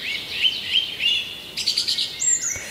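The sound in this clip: Birds chirp and tweet in a string of high, bright calls, a few spaced notes first, then a quicker run of chirps and a higher, thin note near the end, with nothing else heard.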